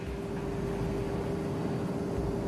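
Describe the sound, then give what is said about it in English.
A steady, droning airplane rumble as the plane flies through turbulence in a flight video game, with an even whoosh and a faint tonal whine throughout. “Vito, there seems to be lots of turbulence there. Sarah, hey, can I try the maximum speed on this plane?”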